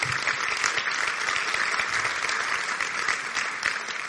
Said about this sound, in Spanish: un aplauso bien fuerte